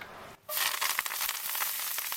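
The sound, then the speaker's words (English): Olive oil heating in a pan, with sea salt and black pepper to be added: a bright, steady sizzling hiss that begins abruptly after a brief quiet moment and continues with scattered crackles and pops. “And now while we're cooking with olive oil, and a little Malden, probably a little black pepper.”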